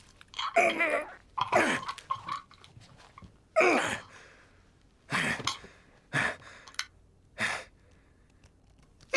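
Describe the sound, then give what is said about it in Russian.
A woman chokes and gasps as she is strangled in a film scene: several harsh, breathy bursts of strained gasping, separated by short silent pauses. “Джек хватает женщину за горло и продолжает душить. Она размахивает руками.”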